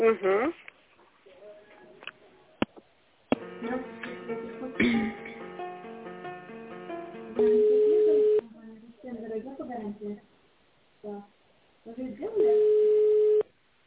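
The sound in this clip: Telephone line tones while a call is transferred: two steady low beeps, each about a second long, separated by stretches of voices and other tonal line sounds.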